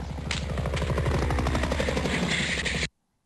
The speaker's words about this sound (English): You know what I really like about that? I like the sound of the helicopter.